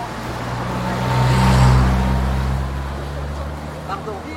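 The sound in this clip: A car passes on a road by the beach where pedestrians are crossing. Engine and tyre noise swell steadily to a peak, then ease back into a low, steady rumble with a faint hum underneath.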